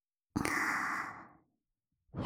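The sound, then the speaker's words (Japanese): Soft breath blown slowly across skin: one long, quiet exhale that fades out gradually, then the start of a second breath, with no talk. “こうして、吐息で、お肌をなぞっていくように、”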